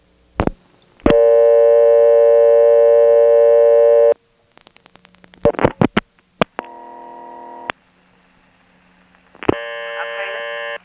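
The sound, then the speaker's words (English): Telephone tones and clicks come from a Carolina Telephone line in Kenley as a zero call is dialed. A click is followed by a long steady buzzing tone, then a run of rapid clicks and short bursts, and finally two further steady tones. “Now, I've mentioned many times how Carolina telephone has small local calling areas. From Kenley, here's a regular dial zero call.”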